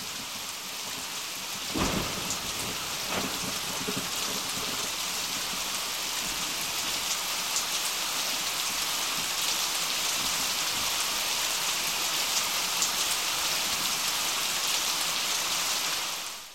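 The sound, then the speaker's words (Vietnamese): Heavy rain pours in a steady, dense roaring hiss from start to finish, with a sharp crack of thunder early on and a fainter one soon after. “Mưa rơi bắt đầu từ giờ Thìn và đến khoảng trước sau giờ Ngọ thì tạnh.”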